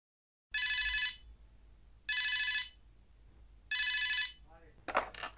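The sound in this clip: A telephone rings at the start of a call: three evenly spaced bright electronic ring bursts, then a voice begins speaking as the call is answered.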